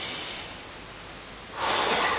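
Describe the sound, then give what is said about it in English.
A deep breath drawn in during a guided group breathing exercise: a steady, airy hiss that swells noticeably louder about two-thirds of the way through. “So if you'd be kind enough, just take a deep breath.”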